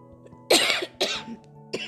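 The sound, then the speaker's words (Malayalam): A person coughs three times in quick succession: rough, sharp bursts over a faint steady hum, with the last one shorter. “ഇതിൻ്റെ ഇടയിൽ ചുമയൊക്കെ ഉണ്ട് നിങ്ങൾ ക്ഷമിക്കണം”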